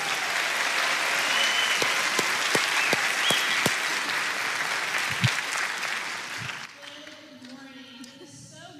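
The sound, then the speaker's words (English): A church audience claps to welcome three new leaders at a Sunday morning service: dense, sustained applause at steady loudness for several seconds, thinning out near the end as a voice begins speaking. “So, why don't you give them a great big Kingwood welcome this morning?”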